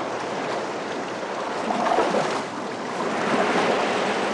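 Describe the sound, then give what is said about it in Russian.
Rough, restless sea waves roar in a continuous wash of surf, swelling louder twice as the water surges, with no voices present. “Море очень неспокойное.”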